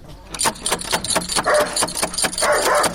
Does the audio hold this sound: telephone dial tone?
no